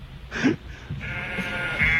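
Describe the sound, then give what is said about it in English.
Sheep bleat in a novelty animal music recording, a few nasal, wavering calls, one short and another longer and drawn out, moderately loud. “Oh, no, it's sheep. Everyone loves sheep.”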